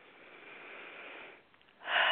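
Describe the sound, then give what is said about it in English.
A deep breath during a guided meditation. Soft, airy breathing swells and settles, then goes quiet briefly before a stronger, louder rush of breath at the end. “Take a deep breath.”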